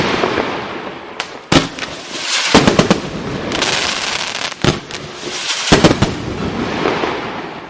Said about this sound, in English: No, that's the sound of the explosives I needed to use when I lost the keys to the studio.